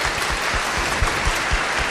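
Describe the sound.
Audience applause greets a priest, a diocesan youth pastor, as he is welcomed at a church gathering preparing for World Youth Day. Dense, steady clapping continues without a break for the whole stretch.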